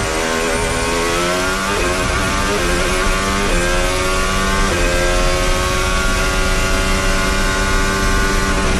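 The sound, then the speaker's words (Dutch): A racing car's engine roars loudly from onboard, its high pitch repeatedly climbing and dropping back in steps with each gear change before holding a sustained high whine. “17-3, zijn we aan boord bij Max.”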